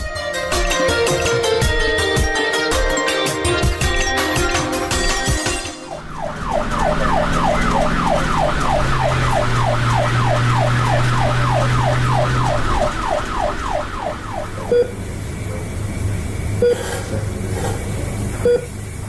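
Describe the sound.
An ambulance siren sounds in a fast yelping pattern of repeated rising and falling sweeps, which follow a few seconds of other dense sound. It then cuts off, leaving a steady low rumble.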